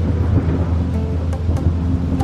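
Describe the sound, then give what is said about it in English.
A thunderstorm with crashing waves rages around a small island, a continuous, loud, roaring wash of wind, rain and surf with a deep rumble underneath and no distinct breaks. “The little island of Otochich Sveti Ivan was caught in a tempest. A tempest is a really big storm.”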